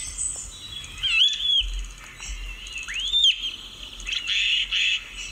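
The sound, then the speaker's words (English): A starling sings an odd, electronic-sounding song of thin whistles, rising and falling sweeps and raspy squawks. The bursts come in short, irregular phrases and are fairly clear over a low background hum. “This is the sound of a starling. Now the starling is very clever and it can copy the sounds of other birds.”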